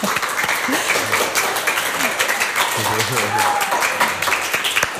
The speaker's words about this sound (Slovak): A teraz si zatlieskate sami sebe, pretože za aktivitu a účasť ďakujeme vám, milé publikum.